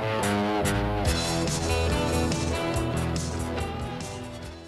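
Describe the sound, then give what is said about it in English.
The intro jingle of a wrestling home video on VHS plays as loud, dense synthesized music with sustained chords and punchy accents, easing slightly in volume toward the end. “well, it's the sound of my childhood, basically. This is the WWF Silver Vision video intro.”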